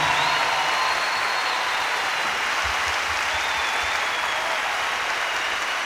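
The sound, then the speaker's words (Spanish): Sustained audience applause for Venezuelan symphony orchestra musicians at a live theater concert, a dense, steady wash of clapping that holds at an even level throughout. “Yo quiero que me le den un aplauso a estos músicos venezolanos que componen esta orquesta sinfónica.”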